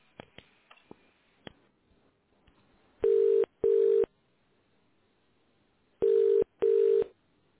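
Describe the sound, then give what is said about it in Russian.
Tone dialing of a four-digit extension on an office's internal telephone exchange: four clear, steady beeps in two closely spaced pairs, preceded by a few faint clicks. “Для соединения с абонентом наберите внутренний четырехзначный номер в тоновом режиме.”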